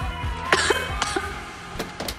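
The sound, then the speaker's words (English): Coughing from a woman right after she takes a drag on a joint: a few harsh, abrupt coughs in quick succession, fairly loud, with no talk. “takes a drag. She coughs instantly.”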